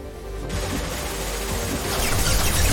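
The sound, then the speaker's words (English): Rapid video game gunfire: a dense, continuous rattle of many shots that kicks in after a quieter first half second and grows slightly louder toward the end. “That's a lot of bullets.”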